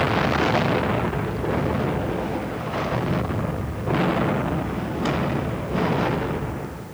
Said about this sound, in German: In diesem Augenblick ereignet sich die erste einer Reihe von Explosionen in den leckgesprungenen Öltanks der Urchiola.